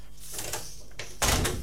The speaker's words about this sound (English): Now, if you wouldn't mind just shutting the door.